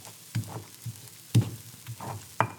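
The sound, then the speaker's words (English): Chile is ground with garlic and salt in a few gritty scraping strokes. Each stroke is a short burst separated by quiet pauses, in an uneven rhythm. “So our chiles and our tomatoes are ready. And so then you just want to grind up your chile with this garlic and the salt.”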